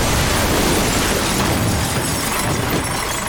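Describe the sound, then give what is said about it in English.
A tractor crashing through a studio wall: one continuous, loud, dense roar of smashing and shattering debris that fills the whole clip without a pause. “What have I told you about crashing through the studio wall on your tractor?”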